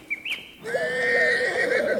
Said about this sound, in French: allons vous présenter les Mustangs des chevaux sauvages